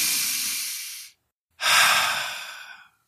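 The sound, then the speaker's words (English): Deep human breathing: two long, airy breaths, each loud and rushing, separated by a short silent pause, with no talk. “perhaps do a really nice deep breath”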